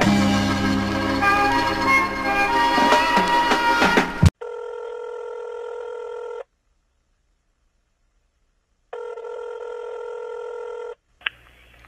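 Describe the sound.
A telephone rings on an outgoing call, giving two long electronic rings separated by a silent gap. Several seconds of loud, dense sound come before the rings.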